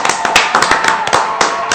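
Loud applause sound effect of a crowd, a dense, steady patter of many hands clapping with sharp individual claps standing out throughout.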